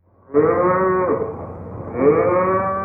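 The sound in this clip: A water buffalo lows at milking time in two long, deep, drawn-out calls, the second following closely on the first, loud and alone with no voices.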